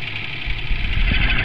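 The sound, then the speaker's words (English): Tractor engine running at idle, a steady low rumbling throb under a bright hiss, loud and continuous for about a second and a half with no voices. “What was that? It sounds like a tractor to me.”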